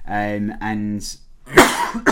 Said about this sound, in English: And coughing his guts up now. Has a proper cough going on now.